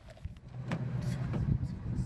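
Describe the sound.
A car drives along a desert road with a quiet, steady low engine rumble, broken by a few soft clicks and thumps.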